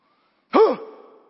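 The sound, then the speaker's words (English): A person demonstrates forceful breathing out from the gut: one strong, partly voiced breath that starts abruptly and then trails off softly. “I want you to take a deep breath in a minute. Don't do it yet. And then I want you to breathe out through your gut. So it'll be like this.”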